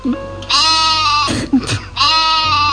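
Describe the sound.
A goat bleats loudly in two long, wavering, nasal cries, with a rougher, noisier bleat in between.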